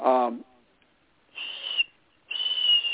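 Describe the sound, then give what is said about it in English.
A human voice imitates a red-tailed hawk's call: a short voiced sound, a pause, then two high, thin, breathy screeching whistles, the second longer than the first. “But the red-tailed hawk makes a kind of a very high, or pretty high, not as high as a little bird would, but”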